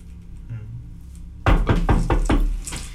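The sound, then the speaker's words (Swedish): A fist knocks on the door of a tower, a quick run of heavy, booming knocks that breaks in after a quiet stretch and carries on to the end. “jag höjer då min knutna näve mot porten och tänker efter ett ögonblick. Eh, sen knackar jag på.”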